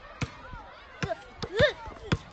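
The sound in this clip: A basketball is caught and bounced during a game, giving a few sharp, irregular thuds, with voices talking between them.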